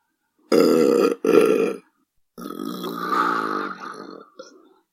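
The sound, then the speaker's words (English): Belching: two short, loud burps come one right after the other, then a longer, wavering belch rumbles on at a lower level and trails off. No one talks over it. “Was that a fart or a belch? I think it was a belch.”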